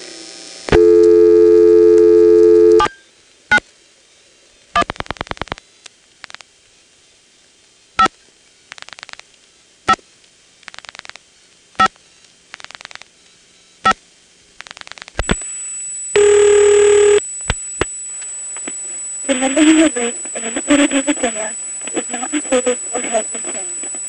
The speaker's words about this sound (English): So 791 gets converted to 72, and then each of the last 4 digits are repeated after I dial them, like this.